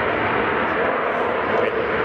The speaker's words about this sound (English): We got to explain, we're at Lakeland at Sun and Fun, and there are some planes in the neighborhood. We're outside one of the hangars, and the plane just went by.